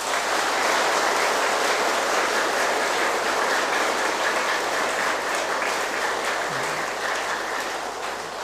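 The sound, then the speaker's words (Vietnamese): A big round of applause from a gathering celebrating a birthday, thick and continuous with countless overlapping claps at a steady loud level, easing slightly near the end. “thì tất cả hãy cho một tràng vỗ tay thật lớn”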